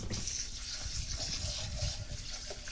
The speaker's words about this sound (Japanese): まず一回お米をひたひたになるまでたっぷり水を注いで、一回 お水を捨ててしまいます。